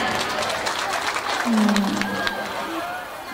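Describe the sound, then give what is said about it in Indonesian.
Applause from a wedding audience for the bride and groom at a dangdut performance: a steady wash of many hands clapping amid crowd noise, with a brief tonal sound partway through. “Tepuk tangan dulu untuk kedua mempelai.”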